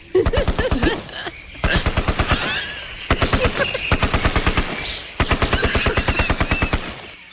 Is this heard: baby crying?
no